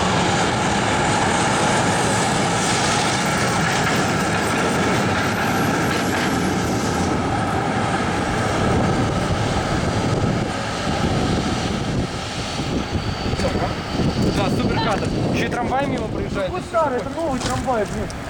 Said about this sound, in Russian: Старый, это новый трамвай, блин.